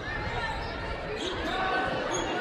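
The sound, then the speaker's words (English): A basketball is dribbled slowly on the court during a women's basketball game, with steady bounces under continuous crowd noise and a voice talking. “a slow dribble far side”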